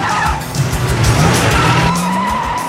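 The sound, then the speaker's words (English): A sports car skids to a stop on a gravel parking lot: a loud, continuous rough scraping hiss of tires on loose stones with a low engine drone beneath, holding steady for nearly three seconds with no voices. “The sports car skids to a stop in the gravel parking lot of an eclectic two-story house.”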